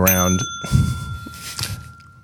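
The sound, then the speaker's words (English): A bell rings once with a clear, bright tone that keeps sounding while people start talking over it. “He had his finger on the bell.”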